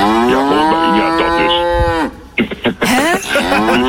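A recorded cow moo plays from a milk bottle cap as the bottle is twisted open: a long, loud, drawn-out lowing call followed by a few shorter, choppier moos.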